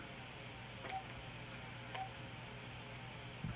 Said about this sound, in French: Je vais l'appeler Dom, là.